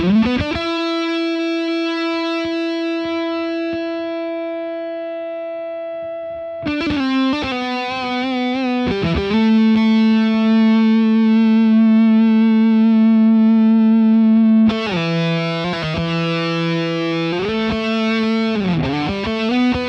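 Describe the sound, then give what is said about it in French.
Electric guitar on the neck pickup through a Squiggy compressor pedal set near maximum on a distorted channel, playing a few long, sustained notes that ring out loudly, some linked by bends or slides. “Chose que l'on peut faire aussi avec la Squiggy qui va compresser le son. Je vais le mettre un petit peu au maximum pour entendre le sustain que cela procure sur un canal saturé.”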